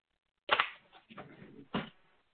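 Paper clip and papers being handled during a meeting: a few short, crisp rustling and clicking bursts with a quieter shuffle between them, and no talking.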